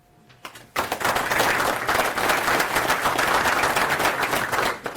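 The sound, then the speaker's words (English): Audience applause greets a conference speaker before a talk on Go in the Nix ecosystem; after a quiet opening, many hands break into dense, sustained clapping that holds steady for several seconds and tapers slightly at the end. “A round of applause, please, for Paul Meyer, who's going to talk about Go in the Nix ecosystem and some interesting work he did in that area.”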